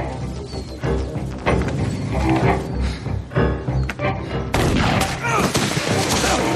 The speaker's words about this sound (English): The man is shot and he stumbles, and the briefcase goes sliding across the ground.